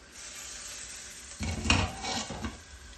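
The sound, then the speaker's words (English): A pot lid over cooking rice is lifted with a wooden spoon. After a quiet start comes a short burst of scraping and clattering cookware that fades back down, faint throughout. “so I'm going to use my wooden spoon. I'm going to open the lid of my pot.”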